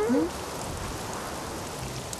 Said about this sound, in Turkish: Fırtına başladı abi. Çok korkunç sesler çıkarıyor. O da mavi canavar gibi bir canavar mı? Yok canımın içi. Şiddetli rüzgar ve yağmur bu sesleri çıkarıyor.